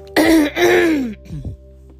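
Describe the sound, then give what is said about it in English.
A person clears their throat with two loud, rasping guttural bursts in quick succession, then a fainter, shorter rough sound trails after them. “sorry, I have to clear my throat. Sorry, I didn't mean to do that in your ear.”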